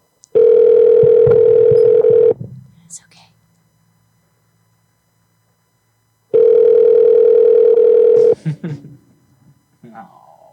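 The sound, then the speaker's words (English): Ringback tones of an unanswered telephone call to a store's electronics department: two long, steady electronic buzzes of about two seconds each, separated by a silent pause of about four seconds, with faint voices after each tone. “Oh, come on, electronics. Answer the phone, man.”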